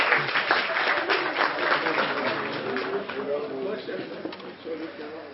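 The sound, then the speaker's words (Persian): Audience applause, a dense patter of clapping that is strongest at first and thins out over several seconds, with a voice speaking over it. “خیلی ممنون، تشویقشون کنید”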